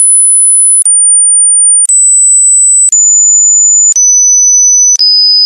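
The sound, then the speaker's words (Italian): A high-pitched pure tone sounds loud and alone in six steady steps, each slightly lower than the last, with a brief click between steps. “Reazioni che risultano quasi sempre negative in risposta a rumori con frequenze comprese fra i 2000 e i 5000 Hz. Ecco un esempio per farvi capire meglio.”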